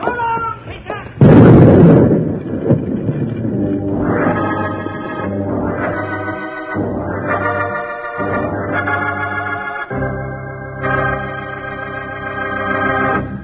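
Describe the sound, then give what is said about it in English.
Dynamite explosion set off by a gunshot: one sudden, loud burst with a rumbling tail, followed by swelling dramatic music. “Shoot at the dynamite.”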